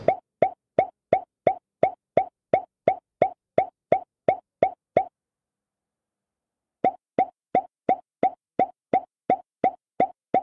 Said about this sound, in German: Ja, das ist also immer so ein Ploppen.